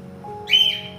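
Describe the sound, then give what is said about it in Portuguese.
A pet cockatiel gives one brief, bright whistled call over a low steady background hum, loud against the quiet before and after it. “minha calopsita gosta de, de pregar. Ela está calada. Eu comecei a live e ela começa a pregar.”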